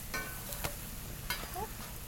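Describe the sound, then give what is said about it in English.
Food fries in a little coconut oil, a quiet, steady sizzle with a few faint clicks and pops throughout. “and frying it in a little coconut oil. We'll just let it get nice and crispy on the outsides, and then it's going to be nice and sort of like almost like a poi on the inside.”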